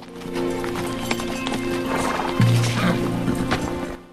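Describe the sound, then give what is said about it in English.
Horse hooves clopping on the ground as the animal is brought to a slow pace and its rider dismounts, with a loud whinny rising over the hoofbeats partway through. “McKay brings his horse to a slow pace as he spots a marker on the ground up ahead. McKay dismounts and ambles in front of his horse, holding the reins.”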